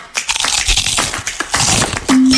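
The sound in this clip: Glass cracking as a windshield chip spreads into a crack, heard as dense, loud bursts of crunching and crackling, then a steady low hum at the end.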